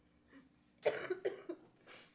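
Coughing from a sick person with a sore throat: a quick cluster of several harsh, rough coughs in close succession, the first the loudest, trailing into a weaker final cough.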